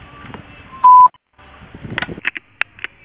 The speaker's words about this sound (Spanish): Si desea, deje su mensaje en la casilla de voz. Después de tono, grabe su mensaje.